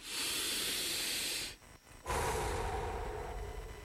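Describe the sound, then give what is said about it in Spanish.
A deep breath: a long, loud breathy rush, a brief pause, then a second long rush of air that gradually softens. “Detenete. Respira profundo.”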